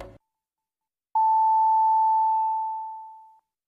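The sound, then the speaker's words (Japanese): Radio station time signal marking six o'clock: a single long, pure high tone that sustains for a couple of seconds and slowly fades away, with silence before it. “87.3 メガヘルツ、レッツウェーブが6時をお知らせします。”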